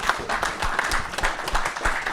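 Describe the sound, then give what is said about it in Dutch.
Applause from a group at a meeting: dense, steady clapping with many overlapping hand claps, continuous and even in loudness throughout. “Verder is, wou ik een applaus vragen voor dit.”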